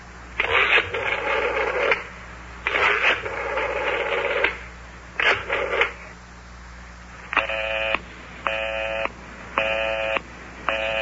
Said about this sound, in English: Listen to that. The line is still busy.